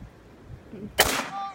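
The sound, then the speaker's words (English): A single rifle shot is fired at a wild turkey during a Thanksgiving hunt. It cracks sharply and loudly, then fades out quickly after a quieter stretch. “Hit it again. That turkey. Got him, get him. Oh yeah, hit him again, hit him again. You got a 5-round mag. Unload the magazine.”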